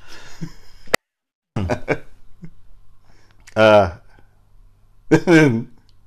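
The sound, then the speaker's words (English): A person choking and clearing their throat: short strained coughs and throat-clearing bursts, then two longer, louder voiced choking sounds separated by quieter stretches. “You choked me on that one, didn't you? Yeah. Okay. Still choking.”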